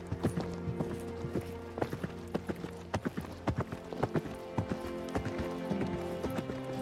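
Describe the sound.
A donkey's hooves clip-clop during a ride, with quick, irregular hoofbeats repeating throughout over a steady background hum.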